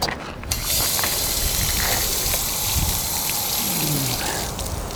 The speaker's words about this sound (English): Actually there's a tap over there, it'd be better. I use the tap and wash my boots off then too.